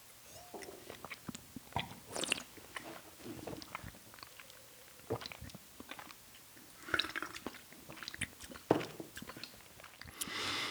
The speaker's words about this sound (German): am Gaumen, ich probiere jetzt mal einen Schluck.